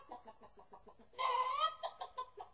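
A speckled hen clucks as she struts around a farmyard. Short rhythmic clucks repeat throughout, broken midway by a louder, drawn-out call.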